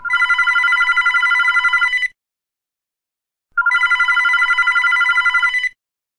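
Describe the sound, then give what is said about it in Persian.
A telephone rings in two long, bright trilling bursts of about two seconds each, separated by a pause of roughly a second and a half, with no voices. “نزدیک ظهر بود که ساسان دوباره زنگ زد”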